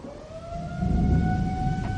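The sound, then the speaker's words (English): A warning siren signals 20 minutes until a bomb explodes, a steady wailing tone that rises slowly in pitch over a low rumbling background. “All right, that's the siren. We got 20 minutes till the bomb goes.”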